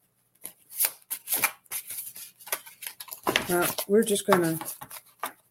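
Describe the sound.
Cards being handled and shuffled give a few crisp, papery flicks and taps, then a quicker run of shuffling with a voice briefly audible over it.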